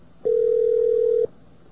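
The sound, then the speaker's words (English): A single ringback tone on an outgoing call to a campus phone: one steady, mid-pitched electronic tone lasting about a second, starting and stopping abruptly with nothing else around it. “This phone is ringing.”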